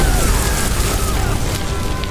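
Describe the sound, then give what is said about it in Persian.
A bomb lands and explodes, heard as a dense, loud, roaring rumble that holds steady throughout without a sharp single blast at the start. “تاماکتی ماگرا رو دور میکنه و به محض رفتنشون یه بمب همونجا فرود میاد، منفجر میشه.”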